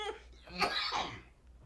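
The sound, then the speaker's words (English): A harsh, loud cough close to the microphone: one rough, breathy burst that trails off quickly. “Damn, I'm all in the mic. Coughing hella hard.”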